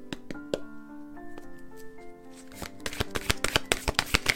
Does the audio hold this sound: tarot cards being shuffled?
yes